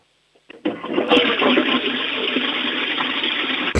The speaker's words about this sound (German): Die ist sogar sehr laut, deine Klospülung.